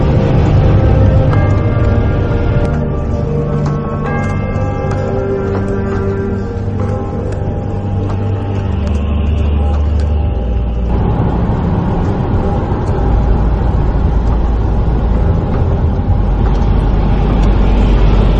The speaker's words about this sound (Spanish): Bueno, vamos para allá. Conduciendo por la carretera. Conduciendo total.